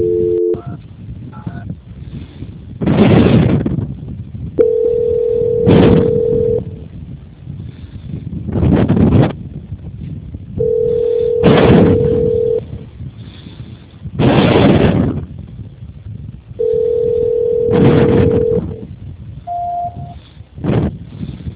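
Telephone tone on a narrow phone line while a call is being transferred: three steady beeps recur at long, even intervals, alternating with loud, bursty noise.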